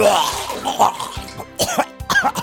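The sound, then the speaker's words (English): Gagging and coughing from a feather tickling the back of the throat: a run of harsh, choking coughs and throat-clearing retches, loud and uneven, with several quick bursts near the end. “Just open wide and let the Halloween Feather tickle the back of your throat.”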